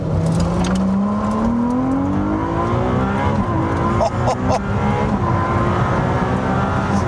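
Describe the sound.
Loud, continuous drive sound of a Ferrari 296 hybrid sports car that can run in race, hybrid or fully electric mode. Its tone climbs steadily in pitch over the first seconds over a steady road roar.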